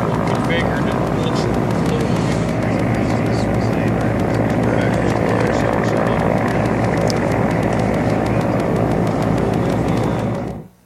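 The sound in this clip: An unmanned, autonomously flown aircraft drones steadily in flight as it drops a load, a loud constant propeller and engine roar with a fixed low hum that holds throughout and cuts off abruptly at the end.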